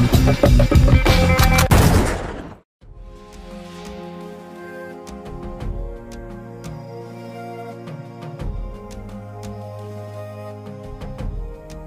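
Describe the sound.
Rapid gunfire crackles in a dense, loud burst for about two seconds, then cuts to a moment of silence before calmer tonal music takes over.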